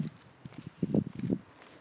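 A horse's hooves clip-clop as it is led at a walk, giving a steady series of soft, dull hoof strikes at a moderate pace.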